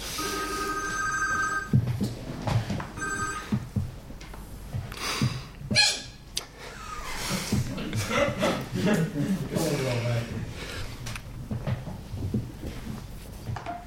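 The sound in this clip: A telephone rings with bright, steady electronic tones at the start and a short burst of ringing again shortly after, then voices talk over low background noise.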